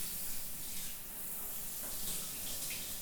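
Water runs steadily while feet are rinsed during washing. The quiet, continuous splashing hiss has no pauses and no voices.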